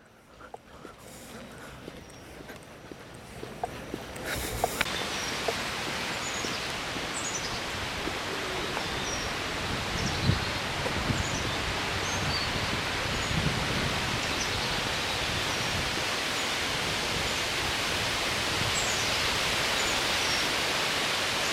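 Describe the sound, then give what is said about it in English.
Wind blowing through very tall trees, roughly 80 to 100 feet high, makes a broad, steady rushing hiss that swells after the first few seconds and then holds. Scattered faint clicks sit on top of the sound. “That's wind blowing in trees that are very tall, maybe 80 to 100 feet tall.”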